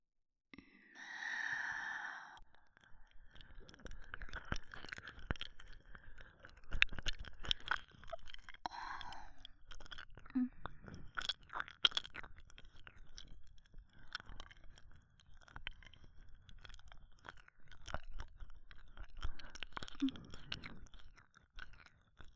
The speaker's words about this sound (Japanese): まずは何をしてあげようかしら。そうね、耳なめとか。